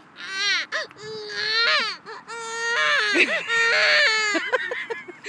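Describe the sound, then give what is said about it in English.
A person imitates a baby crying with several drawn-out, high-pitched wailing cries. The wails waver up and down in pitch and come in short bursts separated by brief gasping pauses. “Do that baby crying.”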